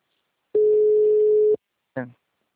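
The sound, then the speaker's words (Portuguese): Telephone tone after a dropped call: a single steady, mid-pitched tone lasts about a second and stops abruptly, followed by a brief voice fragment. “A ligação caiu.”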